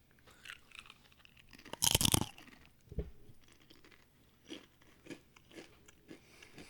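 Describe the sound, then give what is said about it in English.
Biting into a pumpkin seed tortilla chip: one loud, crackly crunch, followed by a series of softer, irregular chewing crunches, all fairly faint, with no talking. “So I'm going to try our other item, which is a pumpkin seed tortilla chip.”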